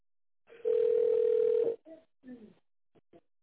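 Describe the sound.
A telephone tone sounds on a call that fails to connect. It is a single steady, mid-pitched tone lasting about a second, followed by a few short, faint voice fragments.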